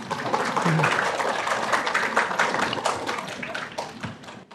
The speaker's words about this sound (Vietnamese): Hay, vỗ tay, vỗ tay.